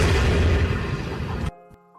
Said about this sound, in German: Erste Explosion. Und jetzt passt auf.